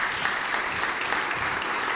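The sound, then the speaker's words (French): Applause honours a man at an event: dense, steady clapping from many hands, moderately loud and continuous throughout. “Applaudissez-le encore une fois.”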